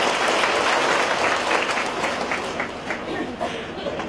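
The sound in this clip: An audience at a Catholic healing gathering breaks into warm, sustained applause, with many hands clapping at an even level that eases slightly toward the end.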